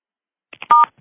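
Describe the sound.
Telephone keypad tones from dialing star six to unmute on a conference call: a couple of soft brief blips, then one loud, steady dual-pitched tone lasting under a quarter second, with no talking.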